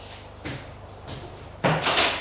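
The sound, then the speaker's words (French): A door opens as someone enters a large bedroom: a few muffled knocks and thumps at a steady pace, with the last and loudest sound running longer and brighter to the end. “Il frappe à une des portes. Une voix dit. Il entre.”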